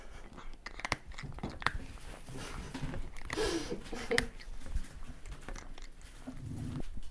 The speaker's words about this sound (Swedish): Ja, Nils äter ju bara torris.